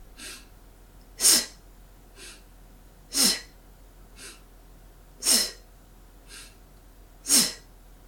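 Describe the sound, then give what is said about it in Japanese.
Forceful breathing-exercise exhalations: four sharp, loud puffs of breath at a steady rhythm about two seconds apart, each followed by a softer, fainter breath. “こんな感じで、スッと一度強い息を吐いてみましょう。では、私の後に続いて5回行ってみてください。スッ。”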